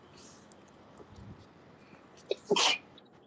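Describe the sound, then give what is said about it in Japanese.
A single quiet sneeze near the end, with a brief catching breath just before the sharp, hissing burst. “すいません、くしゃみが出ます。 ハックション。”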